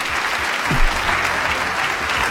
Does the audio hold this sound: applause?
yes